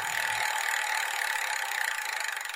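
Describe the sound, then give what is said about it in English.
A game spinner is spun right up close, giving a continuous whirring, rattling ratchet of rapid clicks that stays fairly loud and steady, with the individual ticks becoming more distinct toward the end. “hold it up to the microphone as you spin so everybody can hear the realistic spin sound”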